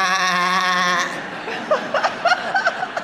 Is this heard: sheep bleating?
yes